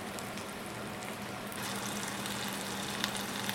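A grilled cheese sandwich sizzles in a very hot cast iron pan, pressed under a lid: a steady, dense crackling hiss that grows a little louder midway, with a few sharp pops.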